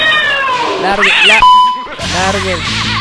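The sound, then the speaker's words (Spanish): A cat meows several times in high, wavering cries. A bright ringing ding sounds between the meows. “Lárguese, gato. ¿No ve que es?”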